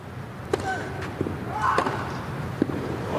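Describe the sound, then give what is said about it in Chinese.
A tennis ball is struck on Zverev's backhand return of serve against Sinner in a Grand Slam men's singles match. A few sharp percussive pops stand out over steady court noise. “这球反拍接发球，兹维列夫接进来了，反拍直线的一记 return ace。”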